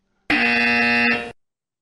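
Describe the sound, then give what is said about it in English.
A buzzer sounds once for about a second, a harsh, loud electronic tone that starts abruptly, holds steady and cuts off sharply, with no voices. “Where's the buzzer?”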